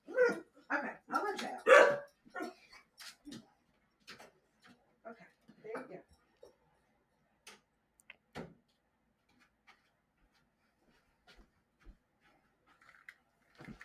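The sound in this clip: A dog whimpers excitedly in short, scattered whines and yips. The sounds are faint and irregular, busier at first and then separated by longer quiet gaps.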